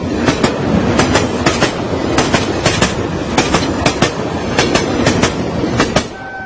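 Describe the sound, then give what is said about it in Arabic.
A train runs on rails with a steady clickety-clack, the wheels striking rail joints in regular paired clicks over a continuous loud rumble. “سمعت اللحظة صوت زي ما يكون قطر ماشي على قضبان.”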